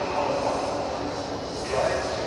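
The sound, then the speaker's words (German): Ambience of Frankfurt main station: a steady wash of diffuse noise with an indistinct murmur of crowd voices that holds at an even level throughout. “Aber wie ihr vielleicht hören könnt, bin ich gerade am Frankfurter Hauptbahnhof. Kapitän Jansen, der muss hier gleich mit der Bahn ankommen. Ja, mit dem Zug.”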